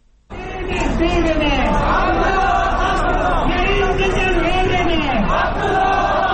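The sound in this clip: A large crowd of protesters marches in Kabul: supporters of an election candidate rallying against alleged vote fraud. A dense mass of raised voices shouts together, loud and steady after a brief quiet start.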